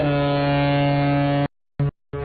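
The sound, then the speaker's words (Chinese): A cargo ship loaded with new wheat sounds its horn as it sets off: a long, steady, deep blast, then a brief burst, then another blast beginning. “一艘艘满载新麦的货轮鸣笛起航”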